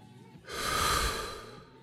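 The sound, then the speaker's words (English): A deep breath is drawn in through the nose during a relaxation exercise. It is one long, soft, airy inhale that swells and then fades, with no talking. “Take a deep breath. In through the nose.”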